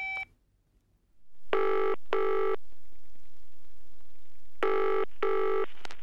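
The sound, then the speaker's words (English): Telephone ringing after a short beep: the bell sounds in two double-ring cycles, each made of two short, bright bursts, separated by a silent pause. “Let's phone Kit. What's his number? It's 7855021.”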